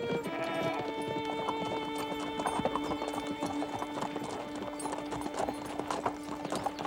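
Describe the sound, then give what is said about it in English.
Hooves of a paint pony clip-clopping at a trading post as the horse is groomed, a steady run of clops over a dense, sustained tonal background. “grooming her horse, a handsome paint pony”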